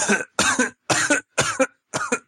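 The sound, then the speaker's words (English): A person coughs five times in a row, each a harsh, loud burst separated by brief silences, with no speech. “Sorry, I had a little cough there.”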